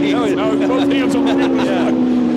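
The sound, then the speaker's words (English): A racing boat engine holds a loud, steady buzzing drone at a nearly constant pitch while the boat rocks in the water, with a voice talking over it throughout. “And look at that boat dance. Look at it just riding that V right at the very back of that boat.”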